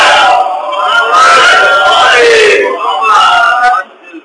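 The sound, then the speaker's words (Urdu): A crowd chanting a slogan in unison at a religious gathering: loud, sustained massed voices rising in a few strong surges, then cutting off abruptly near the end. “نعرے سے پہلے نعرہ اتنا جاندار لگا کہ میں ہمیشہ گڑبڑا جاتا ہوں اس نعرے کے بعد”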